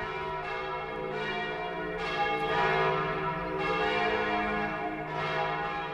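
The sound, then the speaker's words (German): The mighty church bells of the Franciscan basilica in the hilltop town of Assisi peal continuously, with rich overlapping tones that swell in waves and stay loud and steady throughout, with no voices. “Dreimal am Tag hallen auch heute die mächtigen Kirchenglocken der Franziskusbasilika durch die Gassen der Hügelstadt und über das weite Tal.”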